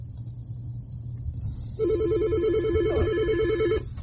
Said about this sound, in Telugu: మనకు ఫోన్ వస్తుంది చూద్దాము అని తీసుకునే ప్రయత్నం చేద్దాం.